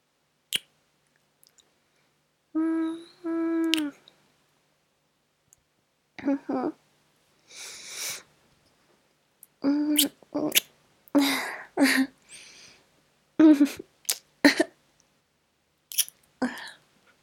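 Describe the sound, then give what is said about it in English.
Kissing: many short wet smacks in irregular bursts, mixed with soft voiced murmurs between some of them. “Are you sure? I really don't want you to get sick. Okay. Give me a kiss.”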